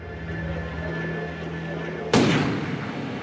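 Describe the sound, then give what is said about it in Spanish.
A single pistol gunshot during the Vietnam War: one sharp, loud crack about two-thirds of the way through, with a decaying tail, after a steady low hum. “el general Nguyen Ngoc Loan saca su pistola”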